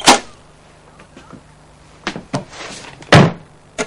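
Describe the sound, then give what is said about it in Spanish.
A cookie box being closed makes a few dull thumps and knocks spread through quieter stretches. The loudest knock comes near the end. “Echa mano a una caja de galletas que John cierra.”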